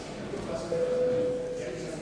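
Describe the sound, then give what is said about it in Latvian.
Voting bell in the Latvian parliament, the Saeima, called before a vote on an amendment: a steady electronic tone holds for under a second over a murmuring, speech-filled chamber. “Par otro priekšlikumu deputāti lūdzu balsojumu. Lūdzu zvanu.”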